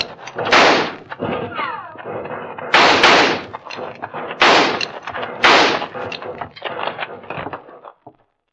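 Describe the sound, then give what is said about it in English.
Gunfire during a shootout among rocks in a canyon: several loud, sharp reports at irregular intervals, with quieter cracks and rattles between them, ending in silence. “They've quit firing. I guess they must be reloading.”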